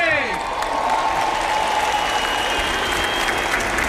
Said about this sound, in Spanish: Va a pasar muy cerca de la gente, lleva un ritmo sin pausa, pero continuado a través de esos pasillos, a través de la gente, y este es el sonido directo.